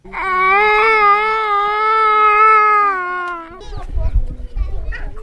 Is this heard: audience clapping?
no

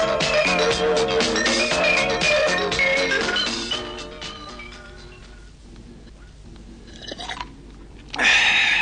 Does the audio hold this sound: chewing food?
yes

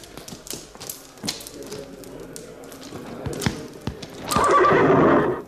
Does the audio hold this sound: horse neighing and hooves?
yes

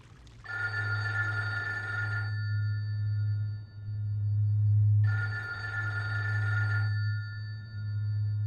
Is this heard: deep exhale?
no

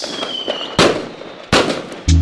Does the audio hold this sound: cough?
no

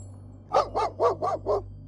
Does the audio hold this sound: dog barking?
yes

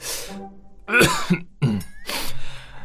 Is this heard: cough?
yes

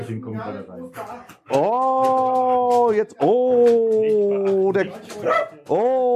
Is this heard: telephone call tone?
no

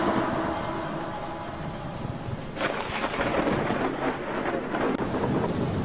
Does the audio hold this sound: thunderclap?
yes

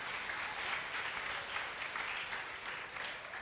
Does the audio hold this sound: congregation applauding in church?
yes

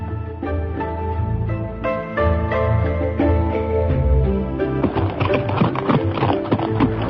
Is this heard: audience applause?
no

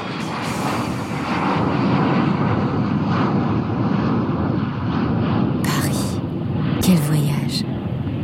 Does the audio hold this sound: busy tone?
no

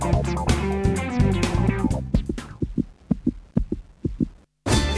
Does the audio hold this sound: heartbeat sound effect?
yes

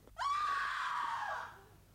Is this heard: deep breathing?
no

